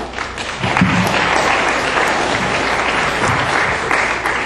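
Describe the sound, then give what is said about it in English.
An audience applauds to welcome a priest introduced to speak on repentance and conversion for Lent, with loud, sustained clapping that holds steady throughout. “So please welcome Father Ray Soriano.”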